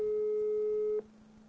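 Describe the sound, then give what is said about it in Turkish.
A telephone busy signal on an engaged line: one steady, mid-pitched electronic tone holds for about a second, then cuts off abruptly, leaving a faint low hum. “Abi biriyle konuşuyor şu an. Kapalı demiyor mu telefon? Biriyle mi konuşuyor dedi.”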